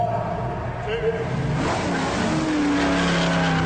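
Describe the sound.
Car engines revving and accelerating at a drag race on a professional motor speedway, a loud, steady roar that holds throughout.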